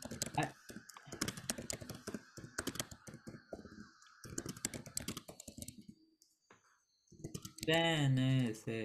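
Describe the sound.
Typing on a computer keyboard: many quick, faint keystroke clicks in irregular bursts, with talking mixed in and a voice rising clearly near the end.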